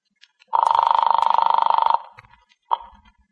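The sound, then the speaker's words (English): A telephone rings on an outgoing call. One long, loud, buzzing electric ring is followed by a short pause and then a brief, sharp burst of the same tone. “Who are you calling? The Blues Club.”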